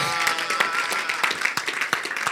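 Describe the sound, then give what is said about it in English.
An audience clapping during a church service, many irregular, overlapping hand claps in a quick, uneven rhythm over a steady bed of background sound. “Clap for the Lord Jesus.”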